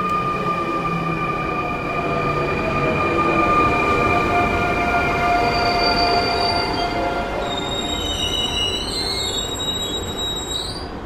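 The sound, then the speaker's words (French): A train rumbling and braking as it stops at the Menton-Garavan station: a steady, loud mechanical roar with sustained tonal whines, and shrill wheel squeals joining in near the end. “Donc le train s'est arrêté en gare de Menton-Garavan et les policiers inspectent le train et notamment les toilettes.”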